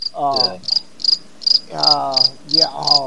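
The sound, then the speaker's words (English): A crickets-chirping sound effect of high, short chirps repeats at an even, regular pace, loud and clear with no talking. “We got crickets from Joseph”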